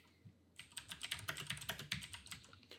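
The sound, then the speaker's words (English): Typing on a computer keyboard: a quick run of many crisp key clicks in an uneven rhythm, fairly faint, beginning after a short quiet stretch. “just type in Batman and Harley Quinn.”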